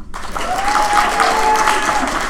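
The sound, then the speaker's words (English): Audience applause from a crowd of people aged 60 and over, loud steady clapping that starts abruptly and holds at an even level throughout, with a few faint voices mixed in. “By applause, how many people are 60 or over? Let's hear that.”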